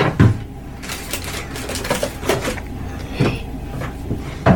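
A lotion bottle being handled and dispensed: a few irregular plastic clicks, taps and soft rustles over a steady low background hum, with no talk.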